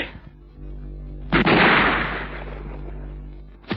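Hunters' guns fire in a woodland shooting scene of a film audio drama. A loud, sharp shot rolls away in a long noisy decay over a low hum, and a second shot cracks at the very end.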